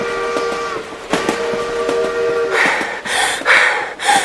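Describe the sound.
A steam train whistle sounds in sustained, layered harmonic tones, then gives way to a few loud, hissing steam bursts in an uneven rhythm.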